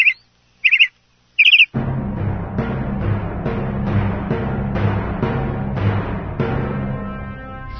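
Three short, bright bird chirps ring out alone in quick succession, then steady music begins and carries on to the end.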